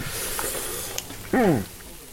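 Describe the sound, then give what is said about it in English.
Elk burger patties sizzle on a small Weber grill in a driveway, giving a steady, soft hiss throughout, with a brief voice cutting in just past the midpoint. “The patties are sizzling on a little Weber grill in his driveway, and they smell delicious.”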